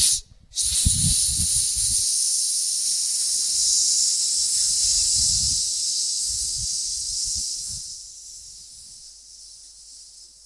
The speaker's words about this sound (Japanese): 吸って、勢いよく、もう全部吐き切るような感じで絞り出す。吸って、シッ。